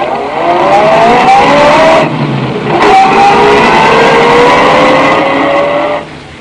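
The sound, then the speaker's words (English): A car engine revs hard and accelerates, its pitch climbing steadily. It drops briefly as if changing gear, climbs again, then cuts off near the end. “I drove the terrified Warwick home, told him to stay indoors until further notice.”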